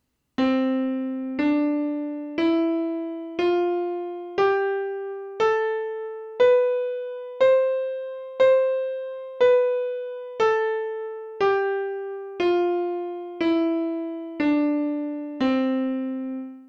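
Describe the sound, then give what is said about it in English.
A major scale played one note at a time on an instrument, climbing one octave and then descending back to the starting pitch. Each clear, sustained tone lasts about a second and fades slightly before the next, in an even, steady rhythm. “simply the most common scale is the major scale. And it sounds like this.”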